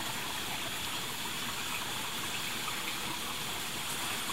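Flowing water of a stream in a cave in Gabon, a steady, even rushing hiss with no change in level and no voices.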